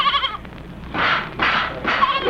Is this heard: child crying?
no